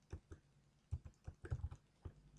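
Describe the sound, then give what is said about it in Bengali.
Typing a password on a computer keyboard while creating a Gmail account: many soft, irregular key taps, clustered quickly in the middle, faint and alone with no voices. “যেমন আমার password লিখতেছি”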